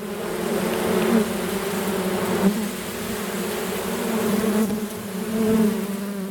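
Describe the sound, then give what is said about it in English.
Honeybees buzzing around simple Langstroth box hives just before a hive inspection, a dense, steady droning hum that swells slightly at moments and runs on without any talking. “And so what's going on here is we're about to do a little inspection and check out the hives.”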